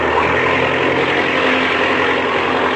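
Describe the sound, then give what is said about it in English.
An aircraft engine roars at wide-open throttle before a takeoff run, a loud, steady, rough drone that holds constant throughout with no voices. “Now, open the throttle up wide.”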